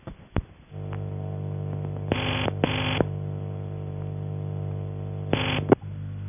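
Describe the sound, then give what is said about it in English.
Steady low electrical buzz from a UAX7 telephone exchange tone machine, a characteristic machine found only on that exchange type, runs throughout. A sharp click comes near the start, and a few short, louder buzzy bursts break in over the hum. “These examples are of machines from a manual exchange, a railway PABX, and a UAX7. In the last case, this type of machine seems to be only fitted to the UAX7, and therefore it's very characteristic.”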